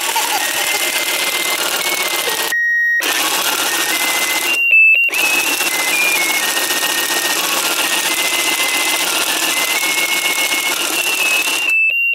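A toy sewing machine for doll clothes stitching with a steady mechanical buzz, broken by two short pauses. A few high electronic beeps from its built-in music sound over the whir.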